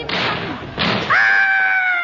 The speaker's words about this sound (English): God, our boots have exploded. Oh! With the exploding of his boots, Seagun realized that something sinister was afoot.